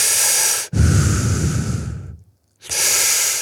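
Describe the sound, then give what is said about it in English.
A voice imitates a person breathing in a quiet room before a live rock show. A few loud, hissing breaths come out, one long and raspy, and a short silence comes before the last breath. “And that's the sound of my director. It is absolutely quiet. Just hear him breathing.”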